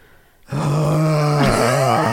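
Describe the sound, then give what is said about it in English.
A voice imitates a terrifying groan: one loud, sustained low moan that holds steady and then dips slightly in pitch partway through before trailing on. “And finally they heard a terrifying groan.”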